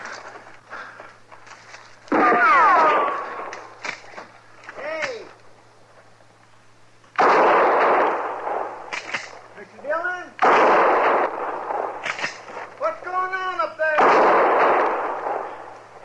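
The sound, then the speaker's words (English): Gunshots fired at a man in a western drama: several loud, booming blasts with long ringing tails, spaced apart, with voiced cries heard between them. “Somebody was shooting at me, Chester.”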